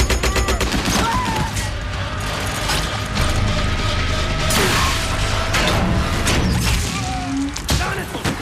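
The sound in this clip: Rapid machine-gun fire from a tank in battle: dense, continuous bursts of sharp cracks layered over clanking, ratcheting mechanical rattle, loud throughout.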